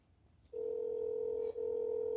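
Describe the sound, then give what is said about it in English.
Phone call placed on speakerphone: after a little low noise, a steady mid-pitched telephone tone sounds, breaks briefly once, and then resumes. “Let's call them on speaker and see what's cracking with it.”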